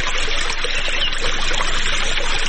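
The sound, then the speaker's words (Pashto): Water flowing while a farmer irrigates an autumn orchard in a village south of Ghazni: a steady, continuous rush and trickle of water, even in loudness throughout, with no distinct separate events. “په دغه باغ کې په اوبو لګولو بوختی”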